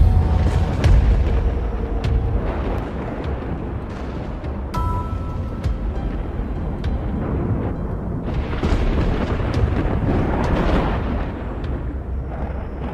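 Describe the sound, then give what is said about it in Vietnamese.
Thunder after a lightning flash rolls on as a deep, loud, continuous rumble, swelling and easing in broad surges without any clear break. “Bỗng nhiên bầu trời lóe sáng lên, một tia chớp rực lên, kèm theo đó là tiếng sấm đùng đùng vang vọng.”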